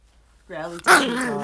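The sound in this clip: A pet dog that has just been shaken growls in a low, drawn-out voiced rumble. The rumble breaks into a sharp, harsh snarling burst, then keeps growling at moderate loudness.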